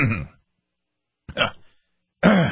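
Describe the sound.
A person clears their throat in a few short, rough bursts separated by brief pauses, the last one fuller and more voiced.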